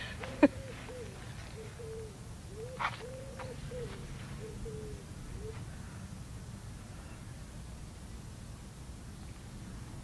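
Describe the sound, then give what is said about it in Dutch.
A pigeon coos outdoors in the countryside: a soft series of low, hooting coos in the first half, then only a faint steady hiss of background noise. “De koeien op de achtergrond, de vogels op de achtergrond. De duif.”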